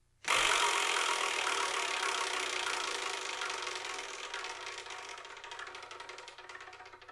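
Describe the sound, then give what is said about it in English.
A prize wheel is spun, giving a burst of rapid, dense clattering ticks that starts abruptly and loud, then gradually slows into more distinct clicks while fading over several seconds. “So I'm going to spin and see what we're going to review in the next episode.”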